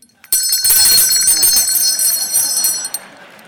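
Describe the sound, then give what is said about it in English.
A handbell received on graduating from the Louisiana Center for the Blind rings with a bright, shimmering high tone that starts sharply and rings on steadily for about three seconds. “This is the bell I got on June 5th of 2009 as a graduate of the Louisiana Center for the Blind.”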